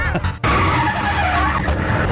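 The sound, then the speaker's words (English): Tyres screech as a race car skids during a stage act: a short burst, a brief break, then a loud, sustained squeal with a ringing tone that lasts to the end. “Driving a race car.”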